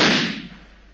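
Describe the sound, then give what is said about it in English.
A single pistol gunshot fired into a wall, a loud sharp crack that trails into a long, slowly fading rumble. “Your bullet mark is perhaps a shade smaller than my own. Permit me.”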